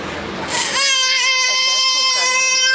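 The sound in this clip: A baby cries in a theatre audience before a lecture. A brief burst of noise gives way to a loud, sustained wail that holds a steady pitch to the end.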